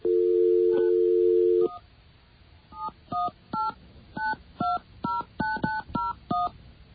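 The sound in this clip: Phone touch tones as a number with a 718 area code is dialed: a steady dial tone first, then a quick string of about ten short beeping tones of varying pitch, loud and clear with no talking.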